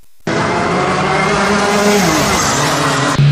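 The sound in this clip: An F4 formula race car roars on an international racing circuit in Ningbo, Zhejiang, during a training run. The loud, high-revving engine snaps in abruptly and holds a sustained, buzzing howl with slight shifts in pitch.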